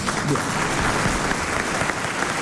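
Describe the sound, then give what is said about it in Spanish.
Studio audience applause, a dense, steady patter of many hands clapping at even loudness throughout, without any clear voices over it. “Público listo, público listo. Aplausos bien. De público.”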